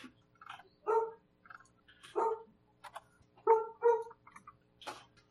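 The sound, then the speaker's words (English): A dog barking in the distance: a cute-sounding run of several short, high, yappy barks in an uneven rhythm. The barks are faint and heard alone, with soft smaller yips between the louder ones. “Dog. Such a cute sounding dog from way over here.”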